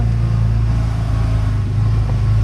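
Steady, loud engine drone of a UTV utility vehicle driving up steep plum orchard slopes, with a constant low hum and little change in pitch.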